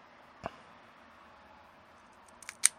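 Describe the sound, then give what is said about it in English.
A V-cutter snipping the cap of a 46 ring gauge cigar: a soft click early on, then a few small ticks and a sharper snap near the end, faint and alone over quiet hiss. “All right, now we're going to do trusty V-cutter. Should be really good on a 46 ring gauge.”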